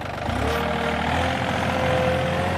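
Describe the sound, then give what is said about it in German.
Engine of a service vehicle driving off at an outdoor swimming pool to empty a waste container: a steady, loud, low rumble with a thin whine running through it. “Sagt er und fährt wieder davon, um den Abfallcontainer zu leeren.”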